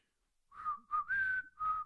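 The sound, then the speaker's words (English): A person whistles a short, out-of-tune tune alone. It is faint and breathy, with four or so wavering notes that slide slightly in pitch, separated by brief pauses. “Right, where you whistle? Let me whistle.”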